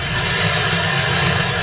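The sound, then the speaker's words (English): Marine One, the presidential helicopter, landing: a loud, steady roar of rotor and engine noise filling the short stretch without a break. “That's the sound of Marine One landing.”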